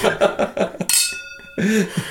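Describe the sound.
Wine glasses clink in a toast during a red wine tasting: one bright strike rings out with a sustained, shimmering glassy tone, with voices talking just before and after it.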